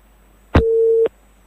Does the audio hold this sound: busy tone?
yes